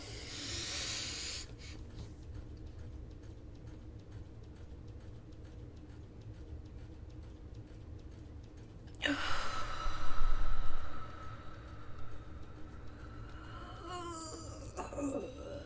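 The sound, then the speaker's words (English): 4-7-8 breathing exercise, breathe in, hold, breathe out: a short breathy intake, then a long quiet stretch, then a long sighing exhale, with faint rustles and breaths at the end. “You breathe in for 4 seconds, you hold it for 7 seconds, and you breathe out for 8 seconds.”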